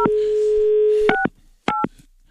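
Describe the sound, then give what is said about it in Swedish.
Telephone keypad dialing: a steady dial tone holds for about a second, then two short, crisp dual-pitch keypad beeps follow with a brief pause between them, clear and fairly loud with no talking. “jag ska prova själv här, det är många knappar, men jag ska prova att ringa till eh, SL här igen.”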